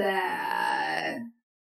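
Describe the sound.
Strange crying from a little house, a single drawn-out, high wailing sob with a strong tonal quality that holds for over a second before cutting off abruptly.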